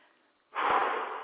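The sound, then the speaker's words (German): A soft breath during a guided inhale-and-exhale exercise. Faint airy noise gives way to a louder rushing exhale that swells and then slowly fades. “Einatmen, ausatmen, weiter.”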